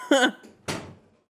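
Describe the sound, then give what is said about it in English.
A door is closed with a single dull thud that quickly fades into silence. “No, Dad, close the door.”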